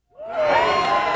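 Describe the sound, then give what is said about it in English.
Young TK and kindergarten students cheer at the opening of a brand new public school in Mission Bay, San Francisco. Their high-pitched shouts rise quickly out of near silence into a loud, sustained burst of excited voices. “That's the sound of incoming TK and kindergarten students opening a brand new school in Mission Bay.”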